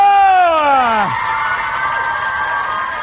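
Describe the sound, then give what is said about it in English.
A studio audience cheers to welcome a guest. It opens with a loud voice whooping on a falling pitch, then settles into a sustained roar of crowd cheering and clapping. “And then an even bigger cheer now you've warmed up for”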